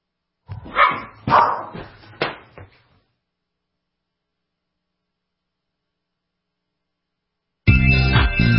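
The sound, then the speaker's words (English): Dogs squabbling with a few loud, rough barks and growly yaps in quick succession, then silence, followed by a steady electrical hum. “Sorry about that. My dogs were getting into a little argument, and I had to split them up, and I apologize for that.”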